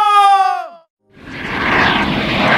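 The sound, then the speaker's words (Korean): An airplane landing sound effect opens with a falling tonal sweep. After a brief silence, a broad, steady jet-engine roar swells up and holds loudly. “여러분, 저희는 잠시 후. 영등포 호놀루루 국제공항에 착륙합니다.”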